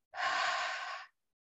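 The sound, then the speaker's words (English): A single long exhale during a guided breathing exercise, a soft, airy breath out lasting about a second before it stops into silence. “In. Two, three, four, hold it. One, two, breathe it out.”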